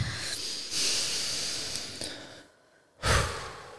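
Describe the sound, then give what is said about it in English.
Deep breathing during a calming affirmation exercise: a long, breathy draw of air that tapers off, then a short pause and a brief, forceful puff of breath. No one speaks. “we're actually going to take another deep breath”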